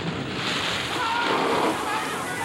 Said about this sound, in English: Water bursts into the corridor.